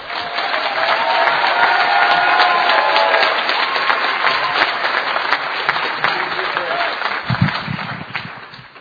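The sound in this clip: An audience applauds to welcome a speaker at a recovery meeting, with dense, steady clapping from many hands that holds strong, then gradually thins and fades toward the end.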